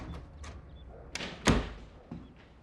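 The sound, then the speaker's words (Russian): A patio door as someone steps into a kitchen, a few soft clunks and a firmer thump in the middle, over faint rustling. “Энди возвращается домой и входит в кухню через дверь внутреннего дворика.”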